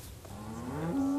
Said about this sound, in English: I hear the cows going moo.